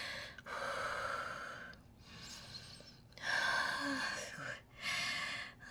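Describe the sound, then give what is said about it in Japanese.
Heavy panting after exertion: a few long, ragged, breathy gasps in and out, loud and rough, with short pauses between them and no clear words. “まだ呼吸が荒い”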